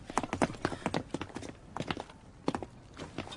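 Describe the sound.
A horse's hooves clip-clop in many crisp, uneven strikes that come in loose clusters with short pauses between them, fairly faint and without voices.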